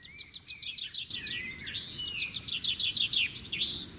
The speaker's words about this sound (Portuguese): Abro a porta da gaiola. Canarinho, canarinha. Dois canários na gaiola.